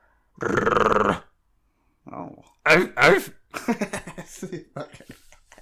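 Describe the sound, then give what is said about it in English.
A single drawn-out, feeble dog bark with a low, growly tone rises out of silence, followed after a pause by people talking. “That is the sorriest bark I've ever heard of. That bark sounded like that dude's horngry, dude. That dog's horngry.”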